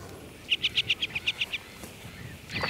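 A rapid run of nine sharp, high chirps comes from a female ground-nesting bird as she flies off her fenced-in nest of eggs. The calls are followed by quiet outdoor background and a faint later call.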